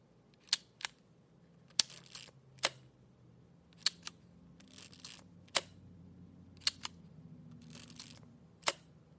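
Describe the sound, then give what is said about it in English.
Repeated sharp shutter clicks from a 1960s Yashica Electro 35 rangefinder camera, several falling in close pairs, with soft handling rustles between the bright, crisp clicks. “Next, we'll hear the Yashica Electro 35, which was a popular rangefinder camera from the 1960s.”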